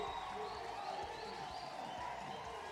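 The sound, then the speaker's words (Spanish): Baseball stadium crowd during the sixth inning while a pitcher warms up: a dense, continuous murmur of many voices that holds an even, moderate level throughout with no sharp peaks. “Hay un pitcher calentando. Ya está listo. El público metiéndose en el juego.”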